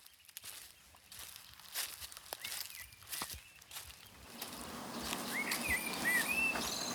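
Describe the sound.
Footsteps crunch and patter through a garden, a few soft irregular steps over leafy ground, while birds chirp faintly in the background during the second half.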